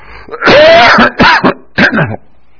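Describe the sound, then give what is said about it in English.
Harsh throat-clearing coughs from someone trying to clear coffee from the lung. Three loud, rasping bursts come in quick succession, the first the longest, then silence. “Excuse me, I'm trying to get that coffee out of my lung.”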